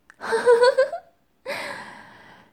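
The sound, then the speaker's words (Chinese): Deep breathing: a short, forceful intake comes first, then after a brief pause a longer breath that slowly fades away. “吸气，吐气，吸气，吸气，吸气。”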